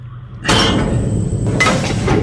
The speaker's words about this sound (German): dann öffne ich jetzt die Schleuse, ja?